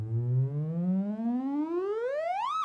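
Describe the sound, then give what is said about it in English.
A synthesizer plays a triangle-wave tone on its own. The smooth, slightly edgy tone glides steadily upward in pitch, then drops sharply at the very end. “So I can change my selector to a triangle wave.”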